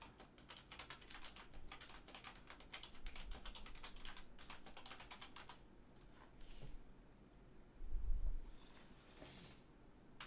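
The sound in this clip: Fast clicking of a computer keyboard as someone types a web search, with dense, steady keystrokes for about six seconds before the typing thins out and grows quieter.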